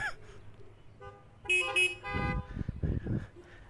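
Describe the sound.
Car horns toot a few short, bright blasts that briefly overlap, followed by lower, rougher rumbling sounds.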